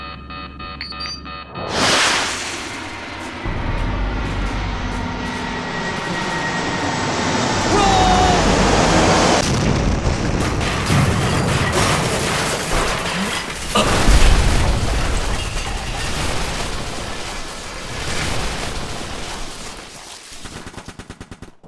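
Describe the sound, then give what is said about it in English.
A damaged fighter fires its last missile in an air battle, and an explosion follows amid a dense, loud roar of booms and rapid gunfire-like crackle that continues for about twenty seconds. “I've been hit and I'm not gonna make it. Firing last missile now.”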